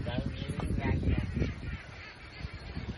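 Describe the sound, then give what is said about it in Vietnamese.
Ducks quacking in an open field in Vietnam, egg-laying ducks kept on farmland, heard as rough, honking calls scattered under people chatting nearby. “Này là thả vịt đất trong hả chú? Chú vịt chú là đất trong hả? Ở trong. Ở trong cái vịt đẻ quá.”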